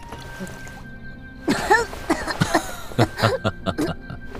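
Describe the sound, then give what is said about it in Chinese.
A person coughs after choking on a sip of strong liquor. After a quiet opening, a run of harsh, throaty coughs and sputters follows in uneven bursts. “昭元被呛得皱起脸，咳了两声”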